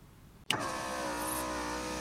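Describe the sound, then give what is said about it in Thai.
Car engine outside a house, cutting in abruptly and then holding a steady, even hum with no talk over it. “รถใครนะเล่นมาจอดหน้าบ้านเราพอดีจะจอดแวะถามทางหรือไงนะ”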